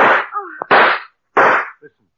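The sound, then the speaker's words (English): Three loud, sharp gunshots fired nearby outdoors in the dark, each a broad burst with a short ringing tail, separated by brief gaps with faint voice-like sounds between the first two. “Those shots came from close by.”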